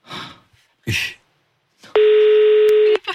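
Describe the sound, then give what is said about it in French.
A telephone ringing after the call button is pressed: a few short noisy bursts, then one steady, loud ringing tone lasting about a second before it cuts off. “Et on appuie sur le bouton. Ah, ça sonne.”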